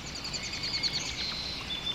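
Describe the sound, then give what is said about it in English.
Birdsong overhead in an untouched wilderness: quick, high chirps repeat over a steady, soft hiss. The calls are fairly faint and there is no talk. “You close your eyes, listening to the beauty of the birdsong overhead,”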